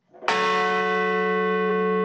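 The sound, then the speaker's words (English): A church bell rings at a memorial ceremony at a plane crash site in a field in Shanksville, Pennsylvania: one clear strike that blooms into a long, steady, humming ring, heard alone. “In Shanksville, Pennsylvania, bells were rung and a wreath was laid where a commercial jet crashed into a field”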